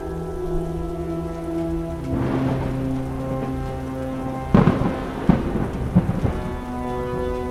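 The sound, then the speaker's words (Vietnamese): Thunder rumbles in a rainstorm. A low roll swells near the middle, then a few sharper cracks follow over steady rain, with a sustained tonal drone held underneath throughout. “Sấm chớp bủa vây trên đầu, hệt như tấm lưới của mấy người ngư dân.”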